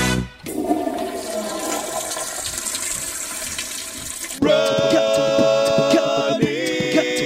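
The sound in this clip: A toilet flushes with a loud rush of swirling water for about four seconds, then gives way to a steadier, tonal hiss as the cistern refills.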